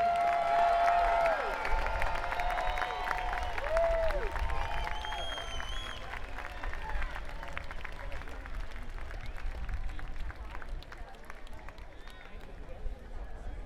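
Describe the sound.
Crowd applauding and cheering at an outdoor afternoon concert in San Francisco: a sustained, loud roar of clapping and shouting with a few whistles near the start, holding steady throughout.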